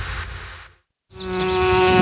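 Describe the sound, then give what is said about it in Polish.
Bees buzz in flight in two stretches of steady droning hum split by a brief silence. The second stretch rises into a louder, sharper tonal whine. “Wszystkie pszczoły tam lecą.”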